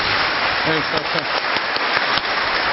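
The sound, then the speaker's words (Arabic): An audience in a lecture hall claps together in a dense, steady wash of applause, with a voice briefly audible over the clapping. “يلا كده المدرج كله بيسقف لك اهو، الله اكبر.”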